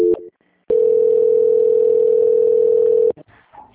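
A steady, unbroken telephone line tone sounds during a call transfer, loud and alone for over two seconds after a brief earlier beep, then cuts off abruptly.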